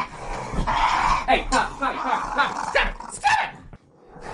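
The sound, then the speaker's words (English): A pet puppy growls and barks in restless bursts while a person talks over it, telling it to go to its kennel; the dog sounds are mixed and partly masked by the voice. “I already have two doggos. Okay, you're gonna have to go in your kennel,”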